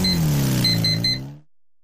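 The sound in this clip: A CF Moto Dual 250 motorcycle engine drones with a low, dense, steady tone that wavers slightly in pitch. A few short, high electronic beeps sound over it before it cuts off abruptly.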